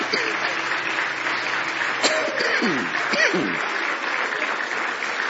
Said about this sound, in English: let's give him a hand clap of praise.